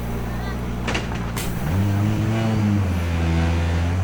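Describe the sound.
A rally car's engine drones at a time control, then climbs in pitch as the car pulls away and settles into a strong, steady roar.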